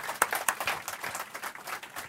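Audience applause welcoming a guest onto a stage: many scattered hand claps form an irregular, fairly quiet patter that continues evenly to the end.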